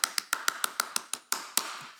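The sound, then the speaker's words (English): Hand clapping as an audience is urged to applaud Jesus: a steady run of sharp, crisp claps at an even pace, then a few more spaced more loosely, with no talk over them. “Let's give Jesus a huge round of applause right where you are.”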